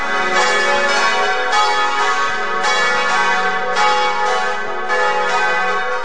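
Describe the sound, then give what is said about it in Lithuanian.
Church bells ring as a call to prayer, a loud and sustained peal of many overlapping strokes at a steady, roughly one-per-second rhythm, each ringing on into the next. “kai tik išgirstate varpų skambesį kviečiantį”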